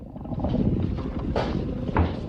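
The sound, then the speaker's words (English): Workshop doors being opened, heard as two brief knocking clunks spaced about half a second apart over a low, steady rumbling background. “Noddy and the priest open the workshop doors and Noddy indicates, "You first," to the priest.”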